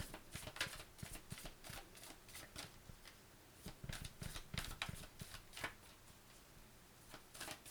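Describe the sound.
A deck of cards is shuffled with many quick, soft riffling bursts in an uneven rhythm, faint and alone without talking.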